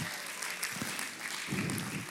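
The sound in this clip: Applause from a church audience at an evening service, a steady, dense spatter of clapping that stays at an even level throughout.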